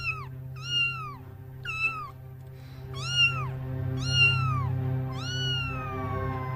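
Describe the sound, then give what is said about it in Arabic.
A small cat meows repeatedly, a series of clear, high, bending cries with short gaps between them, the last one longer and drawn out. “قطة صغيرة كانت بتشرب في الدم اللي بينقط من عادل.”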